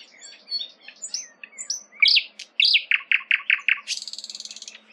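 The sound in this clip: Song of a thrush nightingale: varied chirping and crackling phrases, then a run of loud, evenly repeated notes and a fast, high buzzing trill at the end.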